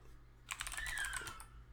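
Quiet typing on a computer keyboard as a guess is entered into a word-guessing game, a short burst of rapid, light key clicks with no talk over it.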